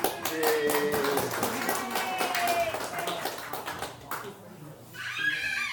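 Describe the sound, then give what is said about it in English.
Audience applause at a gathering as a man is invited up to speak: a dense run of hand claps for about four seconds that then thins out, with cheering voices mixed in. “Give him a big hand.”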